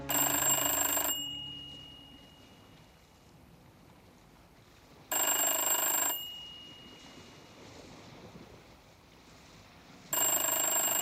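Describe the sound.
A mobile phone rings inside a jacket pocket as someone walks home along a road. Three bright bursts of ringing come about five seconds apart, with low, quiet background noise between them.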